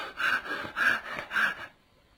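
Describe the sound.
Heavy panting imitated by a voice, for an exhausted, sweating man leaning on a large ring-blade broadsword after a fight: three loud, breathy huffs in a steady rhythm, then quiet.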